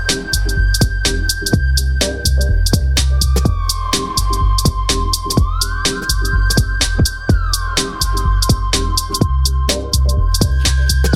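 Dub music track playing on the radio, with a steady, driving beat and heavy bass under a sustained synth tone that slides up and down like a siren.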